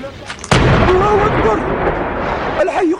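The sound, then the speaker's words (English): Artillery shells exploding in a residential neighborhood of Homs, Syria: one sudden heavy blast gives way to a loud, sustained roar and rumble, with voices faintly audible beneath. “The shells blasting into a residential neighborhood. The regime's attacks relentless in an area of Homs where thousands of civilians are trapped.”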